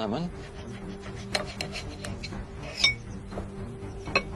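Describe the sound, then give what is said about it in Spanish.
A knife slices through a lemon, making a few faint, sharp taps and clicks against the cutting surface amid soft kitchen background noise. “Voy a dejar la valla y voy a cortar el limón.”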